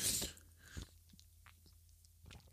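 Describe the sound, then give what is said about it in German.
A brief, fairly loud slurping sip of coffee, followed by faint, soft mouth and swallowing sounds in near quiet. “ich muss erstmal einen Schluck Kaffee trinken.”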